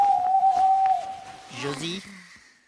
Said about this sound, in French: Non, c'est une chouette.